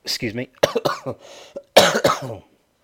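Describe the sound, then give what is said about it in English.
A few harsh coughs with throat clearing from a person whose cough is nearly gone, coming as short, sharp bursts with brief gaps between them. “my cough's nearly gone”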